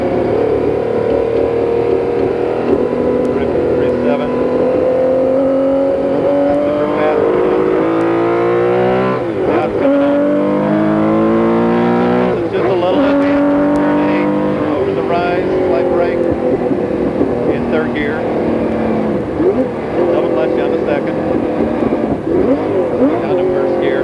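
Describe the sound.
Porsche 917 race car at Riverside during warm-up laps, its engine roaring loudly and continuously, the pitch climbing repeatedly under acceleration and dropping at each gear change.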